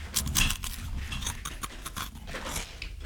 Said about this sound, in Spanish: ¿Saben qué estoy comiendo? Estás comiendo una zanahoria. Las tosti. Te detesto porque me pegaste ese vicio. Estoy comiendo tosti.